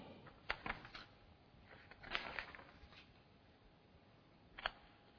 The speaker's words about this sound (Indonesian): Sampai nanti halaman 289, kita buka halaman 282